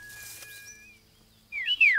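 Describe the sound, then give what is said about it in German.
Parent birds chirp as they return to their nest: faint, thin whistled notes at first, then a louder burst of bright, high chirps near the end. “schau doch, die Vogelmama und auch der Vogelpapa, sie sind wieder zurückgekommen”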